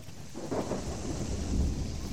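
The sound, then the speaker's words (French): Violent thunderstorm with torrential rain: a steady, dense hiss of heavy rainfall with low rumbling thunder that swells toward the end, with no voices. “Une violente tempête se déchaîna subitement, une pluie torrentielle fondit sur les voyageurs et remplit d'eau les ornières du chemin.”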